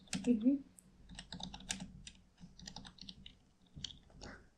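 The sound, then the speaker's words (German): Quiet typing on a computer keyboard, with irregular clusters of soft clicking keystrokes that pause briefly now and then. “Ich kann nicht sehen, was du tippst.”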